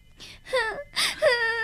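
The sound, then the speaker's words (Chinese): A child cries in a few wavering, whimpering wails that bend up and down in pitch, separated by short breathy gaps, with no talk over them. “别哭了，等放假了，妈妈带你到上海去看爸爸，好不好？”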